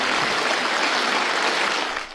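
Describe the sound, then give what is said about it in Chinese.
Warm applause from a conference hall at a national legislative presidium meeting, a dense, even clatter of many hands that holds steady for about two seconds, then starts to fade. “之后，张德江在主席团常务主席栗战书的陪同下步出会议厅，全场响起热烈的掌声。”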